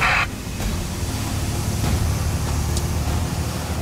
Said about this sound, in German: Oh, wunderbar. Lkw vorbei.